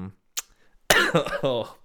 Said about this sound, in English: I'm coughing just thinking about it.